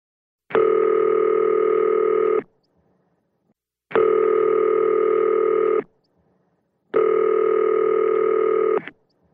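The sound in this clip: Telephone tones on a call to a voicemail line: three long, steady electronic tones of about two seconds each, separated by short silences, heard alone with no voices.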